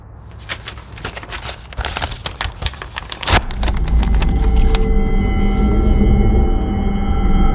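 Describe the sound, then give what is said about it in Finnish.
Rustling and crinkling as a thick paper envelope is handled, a burst of dry crackles over a few seconds, then giving way to a steady, loud droning hum. “Sulle tuli joku lähetys. Mä otin vastaan. Mikä lähetys? Paksu kirjekuori näyttäisi olevan Los Angelesista.”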